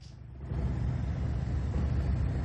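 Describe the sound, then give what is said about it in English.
Low engine rumble from a memorial vehicle procession driving through a city street in Washington, D.C., a steady, droning hum that swells slightly after the first moment and then holds even, with no voices. “Late last night, a vehicle procession in Washington, D.C., honoring 20-year-old U.S. Army Specialist Sarah Beckstrom”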